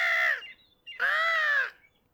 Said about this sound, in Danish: så får han øje på en måge højt oppe i luften